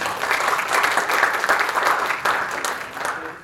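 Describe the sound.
Audience applause welcomes a Cornell graduate speaker to a session on health, a dense, steady clatter of many hands that holds at an even level throughout.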